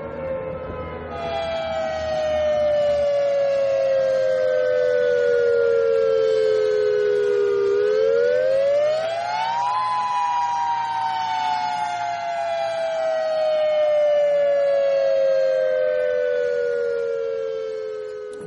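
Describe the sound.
An emergency alert siren in Hawaii wails loudly and steadily with no talk over it. Its long tone slowly falls, climbs back up and then falls again.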